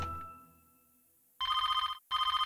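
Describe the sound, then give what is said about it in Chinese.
Telephone ringing: two bursts of rapid electronic warbling rings, the second cut off, after a faint fading tone and brief quiet. “啊，电话响了。”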